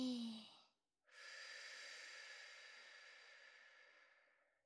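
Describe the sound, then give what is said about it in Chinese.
Slow, very quiet breathing during a breathing exercise: a short breath fades out, then after a brief silence a long, airy, steady breath slowly tapers away. “吸气，吐气，”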